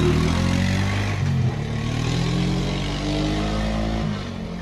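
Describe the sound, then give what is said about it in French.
A quad ATV engine drives along, a continuous buzzing motor drone with rattling clatter, holding an even level and easing slightly near the end. “Le véhicule qui vient d'être détecté, c'est le quad d'un des collègues de Glenn. Vous avez entendu ça ?”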